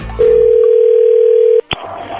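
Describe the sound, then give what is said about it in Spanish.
Telephone tone on a call being placed: a loud steady mid-pitched tone holds for about a second and a half, then cuts off with a short sharp click, leaving low background noise. “ya le estamos marcando”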